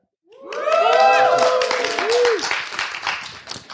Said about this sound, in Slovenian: Tole epizodo smo posneli v kinoteki v Ljubljani pred živim občinstvom, ki danes še nikakor ne gre spat. Občinstvo, oglasite se.